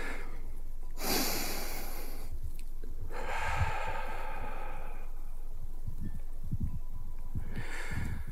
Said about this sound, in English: Grab my hands. Let's breathe.